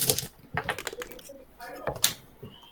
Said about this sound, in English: We're breaking protocol and using a 10-sided die for this. All right. Everyone roll.